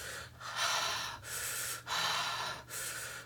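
Deep, relaxed breathing through the mouth with a slack jaw: a few long, airy breaths follow one another in a steady, unhurried rhythm, with no talk.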